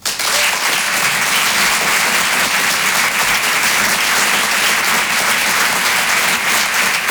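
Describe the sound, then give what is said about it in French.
Loud, steady applause from a comedy club audience, with continuous dense clapping and no break across the whole stretch. “Et je vous demande de faire du bruit et de l'encourager très chaleureusement.”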